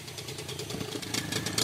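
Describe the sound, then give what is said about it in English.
An outboard motor drives a long, skinny dugout canoe on an Amazon river, giving a fairly quiet, mid-pitched engine drone with a slightly uneven, throbbing pulse. “Two guys are waiting for us in a long, skinny dugout with an outboard on the back.”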